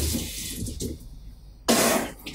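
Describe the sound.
Voice imitating vomiting that sounds like a running sink: a few soft breathy gushes, then one louder sudden hissing surge of breath like water rushing from a tap.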